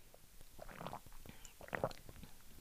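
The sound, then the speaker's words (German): A person drinking a few sips, heard as a couple of soft, wet gulping and swallowing bursts with small mouth noises between them, moderately quiet. “ich trinke noch 2 Schlücke”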